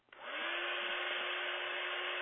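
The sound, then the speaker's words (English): An iTeraCare electric blower switches on and runs like a hairdryer: a click, then a steady, airy whoosh with a constant whine underneath, holding at an even level. “And believe it or not, you turn it on and you just start blowing it just like it's a hairdryer. It reminds me of a hairdryer. I'm going to turn it on so you can hear it just a minute.”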